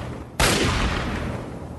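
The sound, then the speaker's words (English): A laser rifle firing in a video game: one sudden, loud blast that cuts in abruptly and trails off into a long, gradually fading rushing noise, with no talking. “Something with a laser rifle. Might be a gunner. Not a gunner. Talon Company guy.”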